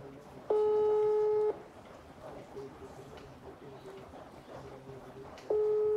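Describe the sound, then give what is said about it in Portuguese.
An unanswered video call rings: a steady electronic tone lasting about a second sounds twice, with a few seconds of quieter background noise between the two rings. “Ele falou pra ligar de vídeo, ó. Parece que está em reunião, mas vai ter, acho que vai atender.”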